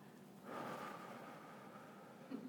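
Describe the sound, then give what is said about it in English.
A single soft inhale through the nose during a breathing exercise: a faint, airy draw of breath that rises quickly, then gradually fades out, followed by a tiny sound at the end. “So let's just do this for a second because it feels really good. Let's just do a little inhale through the nose.”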